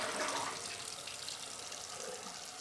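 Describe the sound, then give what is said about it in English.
Running tap water as someone washes their hands, a faint, steady hiss of flowing water that continues without a break. “Now he's washing his hands.”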